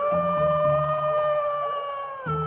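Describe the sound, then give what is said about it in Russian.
A wolf howls as it walks through a forest, one long, sustained, steady high tone with faint low pulsing beneath it. “Вот вошел волк Ваня в медвежий лес. Идет, воет.”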